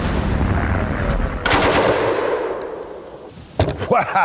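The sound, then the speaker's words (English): A Czech-designed Bren light machine gun of World War II British service fires a few loud, sharp bursts. Metallic clanging and ringing tails follow the shots, with short pauses between the bursts. “The Czech-designed Bren became one of the most iconic British weapons of World War II. It was so versatile, it quickly became the backbone of the infantry and was vital in anti-tank warfare.”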